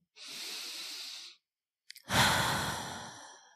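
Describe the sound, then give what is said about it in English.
A deliberate deep breath during a relaxation exercise: a smooth, hissing inhale lasting about a second, a brief pause and a small click, then a louder, longer sighing exhale that slowly fades. “I want to invite you to close your eyes if you're not driving and take a deep breath.”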